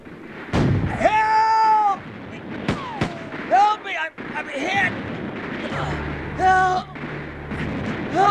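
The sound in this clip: Battle sound effects of artillery and gunfire: sharp bangs scattered among loud shouting voices, with a low rumbling drone rising in the later part.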